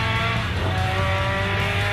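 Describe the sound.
A car drifts with its tires skidding: a loud, continuous engine roar blends with squealing rubber, holding steady and dense for the whole two seconds.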